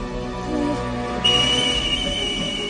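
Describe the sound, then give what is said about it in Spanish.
A kettle on the stove whistles, a thin, steady high whistle that starts partway through and holds an even pitch over a low, continuous background of other sound. “Dolores llega a la cocina donde una tetera puesta al fuego silba”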